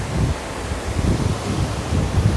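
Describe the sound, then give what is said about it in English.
Wind buffeting a microphone outdoors in a park-like city square, a steady low rumbling roar broken by irregular gusty thumps, with no talk. “sorry, there's a bit of wind.”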